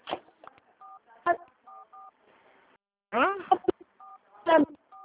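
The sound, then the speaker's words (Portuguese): Telephone keypad tones being pressed, many short two-note beeps in quick pairs, alternating with stretches of people talking. “Tá apertando o teclado do telefone.”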